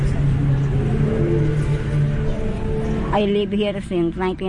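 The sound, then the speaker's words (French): A funeral convoy of cars passing in the distance gives a steady, low humming engine drone. After about three seconds a voice begins talking over it. “Au loin, on entend un convoi funéraire.”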